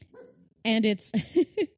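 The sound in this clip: A small dog lying on someone's lap gives a few short, yelping barks in quick succession, each sharp and fairly loud, after a quieter low murmur at the start.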